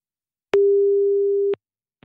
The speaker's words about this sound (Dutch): Nou, gaan we even proberen te bellen.